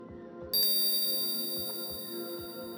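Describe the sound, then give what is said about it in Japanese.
A hypnosis bell chime is struck once and rings on with bright, sustained high overtones that fade slowly, above a soft, steady bed of low background tones. “催眠ベルを聞くたびに、頭の中にもやがかかる。思考がとろんと溶けていく。”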